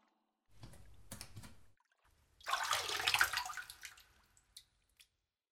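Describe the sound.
Water splashing in a bathtub as someone gets in: soft, quiet sloshing at first, then a louder burst of splashing that gradually settles, followed by a couple of faint drips.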